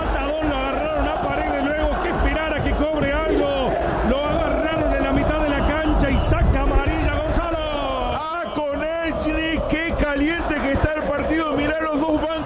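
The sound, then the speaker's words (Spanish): Boca Juniors fans singing in the stands at the Gigante de Arroyito stadium in Rosario during a football match: a dense, continuous mass of chanting voices that stays loud and steady throughout. “Se levanta el público en Rosario, no es la Bombonera, es el gigante de Arroyito. Esto es la hinchada de Boca que canta en los micrófonos de Cadena 3 Argentina.”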